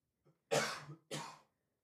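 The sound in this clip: Coughing from a bad tickle in the throat: two harsh, loud bursts of coughing close together, the first longer than the second, heard alone with no talk.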